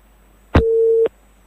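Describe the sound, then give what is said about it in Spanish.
A busy tone after a dropped phone call: one steady, mid-pitched tone lasting about half a second, bracketed by a sharp click at its start and a softer click at its end, then silence. “Qué pena, hemos perdido la llamada”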